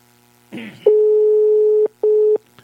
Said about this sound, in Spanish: Se nota que está ocupado. Se tiene ocupado,